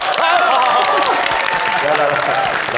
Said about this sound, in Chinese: 那么接下来，让我们用最隆重的掌声来欢迎董事长为我们大家伙讲两句。